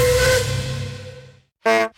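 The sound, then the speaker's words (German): A steam locomotive on a heritage railway lets out a loud hiss of steam mixed with a tonal whistle. The sound fades over about a second and a half, then a short, sharp whistle blast follows after a brief silence. “Spüren Sie echte Dampfpower.”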